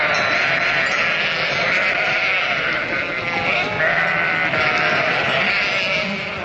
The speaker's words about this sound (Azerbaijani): Azərbaycanda qoyunlar o qədər törüyüb artıb ki, artıq sayları insanların da sayına çatıb.